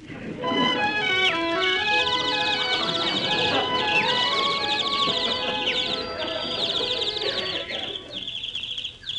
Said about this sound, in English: And look at the animals following me. Oh, see the pretty birds. Hello, bird.